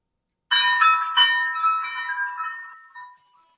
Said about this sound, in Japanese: 入り口のカウベルが鳴った。客が入ってきた。